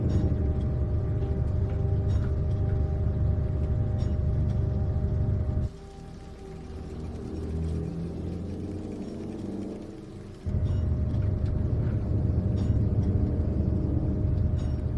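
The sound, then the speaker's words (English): A tram car pulls slowly away from a station with a steady low rumble that drops to a quieter, tonal stretch in the middle before the heavier rumble returns. “A tram car slowly pulls away from the station.”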